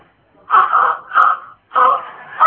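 Wheezy, moaning breaths drawn in and out as a doctor examines a husband with a stethoscope, several loud, drawn-out breaths separated by short pauses.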